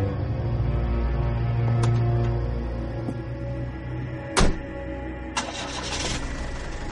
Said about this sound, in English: He just drove off in a cab.